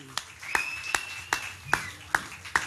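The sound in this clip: An audience claps to welcome a guest onto a stage, heard as six sharp, evenly spaced claps in a steady rhythm, fairly quiet, with a faint high tone running underneath.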